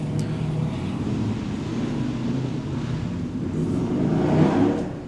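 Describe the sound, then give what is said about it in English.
A motorbike passing by, a continuous engine rumble mixed with breezy noise that swells in loudness toward the end, with no talking. “I'm going to wait for the bike to go by.”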